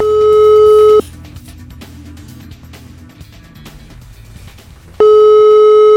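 Telephone ringback tone heard while calling someone: a steady electronic tone sounds for about a second, drops away to low line hiss, then returns loud at the end.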